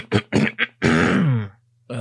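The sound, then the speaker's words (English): A voice imitates throat clearing with a few short, gruff guttural bursts, then a longer voiced rasp that drops in pitch. After a brief pause, another voiced sound starts. “And kind of clears his throat.”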